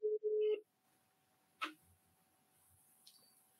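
Ringback tone of an unanswered phone call: two short buzzing tone pulses at the start, then near-silence with a faint hum and a couple of soft clicks.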